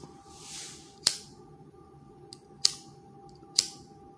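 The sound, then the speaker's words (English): Three sharp clicks from a big lighter being flicked as it runs out, evenly spaced, with a fainter tick between the first two, over a low steady background hum and no voices. “I gotta get me a new lighter. My big lighter going out.”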